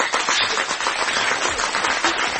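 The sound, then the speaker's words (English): An audience claps throughout a speech, producing a dense, continuous wash of hand claps at a steady loudness with no voices on top. “Why are they clapping? I haven't finished yet.”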